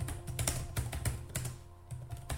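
Typing a message on a computer keyboard: many quick, light key clicks in an uneven patter, with a brief pause before a final burst of keystrokes, alone without voices.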